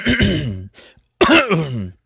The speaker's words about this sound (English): excuse me, I got choked on a little what was left of my hamburger from lunch.